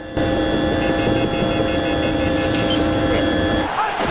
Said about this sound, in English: Ryan's now on board a helicopter. He makes a call on a large phone.